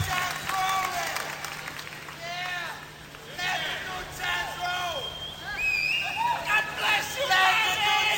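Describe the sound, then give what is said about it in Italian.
Concert audience members shout song requests at B.B. King over a steady bed of crowd noise and babble. Several voices call out in overlapping bursts, growing louder and busier toward the end. “C'è il pubblico che chiede canzoni, che grida, urla titoli di canzoni che vuole sentire eseguite da B.B. King.”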